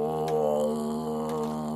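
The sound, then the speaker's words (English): A voice imitates the low groaning rumble of unknowable space horror with one sustained, deep, droning moan that holds an even pitch and steady loudness from start to finish. “I noticed there's sort of a sound that goes along with unknowable space horror. It's that kind of like low groan slash rumble?”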